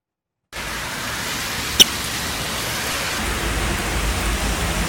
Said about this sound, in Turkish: Şiddetli yağış birçok noktada hayatı olumsuz etkiledi. İşte yurttan sağanak manzaraları.